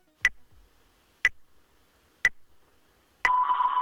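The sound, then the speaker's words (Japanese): A radio time signal marks midnight with three short, evenly spaced beeps about a second apart, followed by a longer sustained tone. “午前0時ちょうどをお知らせします。”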